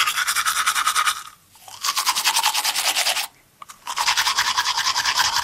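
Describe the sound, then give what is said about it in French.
Vigorous toothbrushing with mint toothpaste: rapid, rhythmic bristle scrubbing in three loud bursts split by two brief pauses, with no talking. “Voilà, un brossage énergique des dents.”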